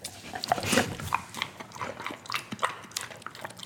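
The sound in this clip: A dog chews a treat with many quick, irregular crunches and wet clicks, fairly loud and steady throughout without pause.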